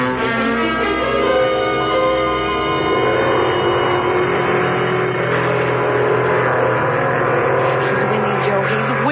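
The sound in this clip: Race cars lapping a track, their engines blending into a sustained, loud, buzzing roar with layered harmonic whine that holds a fairly steady pitch throughout.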